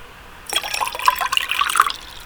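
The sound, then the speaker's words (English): Whiskey being poured as a small dram, a liquid stream that begins abruptly after a short quiet and runs steadily with bright gurgling splashes to the end. “perhaps open a packet of shortbread, perhaps pour yourself a nice little dram of whiskey.”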